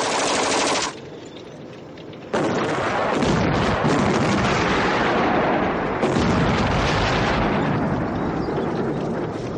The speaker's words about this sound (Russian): Выпущенные танками снаряды рвутся в нескольких десятках метров от окопов.